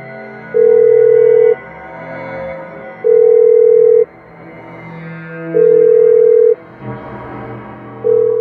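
Telephone ringback tone during a call transfer at a hotel front desk: three steady mid-pitched tones, each about a second long and separated by longer gaps, with a fourth starting as it ends.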